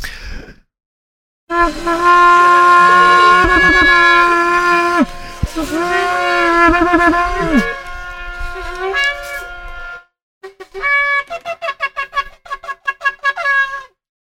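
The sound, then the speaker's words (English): Shofar trumpet blasts: a long, loud, brassy sustained note whose pitch wavers and slides, then after a short pause a run of many quick staccato bursts. “But before we go, we blast our trumpets number three, a third trumpet for the third voice of God.”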